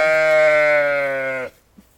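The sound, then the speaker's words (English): A year-old sheep in a field gives a single long, loud bleat, steady in pitch and rich in harmonics, lasting about a second and a half before cutting off into quiet. “Noisy. You've got a Vauxhall voice, you have. So, rock star sheep.”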